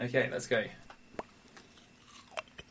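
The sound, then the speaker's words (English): Crunchy chewing and biting of a carrot and crisp sandwich, with a few quiet, crisp crunches and smaller clicks spread unevenly across a fairly faint stretch. “It's like a sandwich, a carrot and crisp sandwich. My time starts now.”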